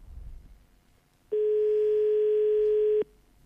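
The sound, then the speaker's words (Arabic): A telephone ringing tone sounds on the line as one steady, unbroken mid-pitched tone lasting under two seconds, loud and alone, after faint low background noise. “عبد الرحيم تيقول لي راه الهاتف يرن”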